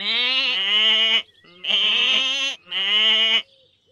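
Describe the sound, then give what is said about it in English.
Goats bleat on a farm: three loud, high, wavering calls, each lasting about a second, with brief gaps between them. “These are goats.”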